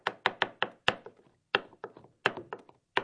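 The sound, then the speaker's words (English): A knife chops through fresh jewelweed leaves, stems and flowers on a board. Many crisp, woody knocks come in an uneven rhythm, some followed by fainter quick taps, with short pauses between runs. “Next, I'm going to chop the jewelweed.”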